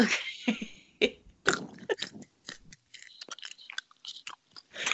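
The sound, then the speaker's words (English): Crunchy chewing while eating during a close-up eating session: loud, sharp crunching bites and wet chewing in uneven bursts separated by short pauses, with no talk. “Love that crunch.”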